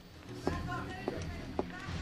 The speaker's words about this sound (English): Arlo hurries across the ops floor.